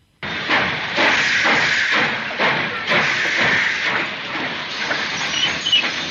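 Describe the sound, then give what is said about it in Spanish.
Loud, steady hissing from a train, likely steam, cuts in abruptly and runs throughout, broken by repeated broad bursts that swell and fade in an uneven rhythm. “¡Que nadie baje del tren!”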